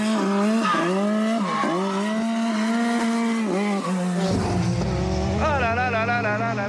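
A race car drifts, its high engine note dipping and climbing several times under load before a rough slide and a wavering tire squeal take over near the end.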